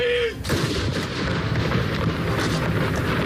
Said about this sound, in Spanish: Este es el sonido de los cañones esta mañana en Oslo.